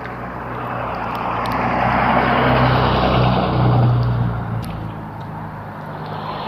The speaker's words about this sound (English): at least the trucks are going now.